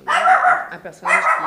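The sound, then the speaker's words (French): A dog barks or yelps twice, two fairly loud, voiced calls separated by a short pause, the first slightly longer and the second sharper. “C'est votre chien.”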